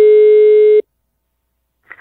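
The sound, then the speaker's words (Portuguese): A telephone busy signal after a dropped call: one loud, steady tone lasting under a second, then silence, with a faint brief noise at the very end. “A ligação caiu, boca de saco.”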